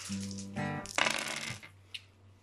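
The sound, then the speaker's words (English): Dice clatter into a dice bin during a tabletop role-playing game: a short burst of rattling, tumbling clicks, followed after a pause by one small sharp tap. “Those dice are going into the dice bin.”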